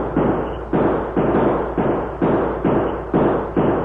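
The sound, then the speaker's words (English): A volley of gunshots sweeps a clearing in a western radio drama: a rapid, steady series of heavy, muffled booming shots, each with a short decay, with no voices. “the Lone Ranger and Tonto quickly slid from their blankets, just as a fusillade of bullets swept the clearing”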